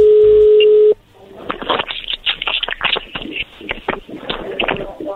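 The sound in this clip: A telephone is dialed before a call: a steady, buzzing line tone holds for about a second, then gives way to a quick, uneven run of many small clicks and taps with a narrow, phone-line quality.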